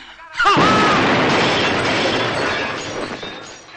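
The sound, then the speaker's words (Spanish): A package bomb explodes inside a hotel room, tearing it apart: a sudden loud blast with shattering glass and debris that roars on for several seconds before slowly fading. “Este explota destrozando la habitación y matando al guapo.”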